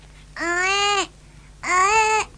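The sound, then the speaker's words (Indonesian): A toy doll's built-in recording plays a baby crying: two high, harmonic wails, each lasting under a second, separated by a short pause. “Bayi menangis.”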